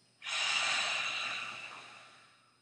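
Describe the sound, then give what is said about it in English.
A long audible breath through the mouth during a meditation breathing exercise rises quickly to full strength, swells once more partway through, and fades slowly over about two seconds. It is a single breathy rush with no talk. “exhale through the mouth with a sound. Inhale, exhale.”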